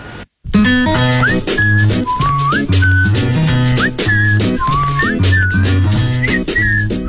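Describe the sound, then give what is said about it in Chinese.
Melodic whistling over an instrumental backing with a steady beat, loud and continuous after a brief silent start. Sustained notes are joined by quick slides between pitches, and no one talks. “口哨吹得不错呀。”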